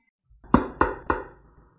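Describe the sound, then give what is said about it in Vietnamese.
Three sharp knocks on a door, evenly spaced and fairly loud, each fading quickly, with quiet before and after. “Đột nhiên tiếng gõ cửa truyền đến, làm cho cô sửng sốt.”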